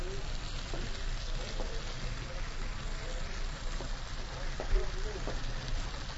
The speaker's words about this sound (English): But what I do is I do it for a couple of minutes on a grill pan.